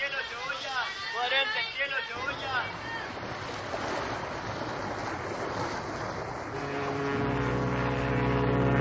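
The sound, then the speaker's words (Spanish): A boat arriving at a dock, with a broad washing rush of water and wind, joined near the end by a steady, low engine drone that grows louder. “¿Escuchó ese barco llegando al muelle?”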